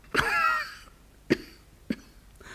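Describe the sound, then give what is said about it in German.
A person coughing three times. The first cough is longer, harsh and voiced, and it is followed after a pause by two short, sharp coughs, each on its own with no talk. “ob Sie was gegen meinen Husten haben.”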